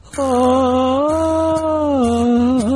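Twangy jaw harp played by a beginner, a loud, steady buzzing drone with wavering overtones that shift as the mouth changes shape, broken by a few brief stops and restarts.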